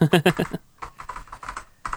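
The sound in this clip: Keys clatter on a computer keyboard as someone updates an outline: brief talk opens, then a run of quick, light keystrokes in uneven bursts, with a short pause before a final flurry.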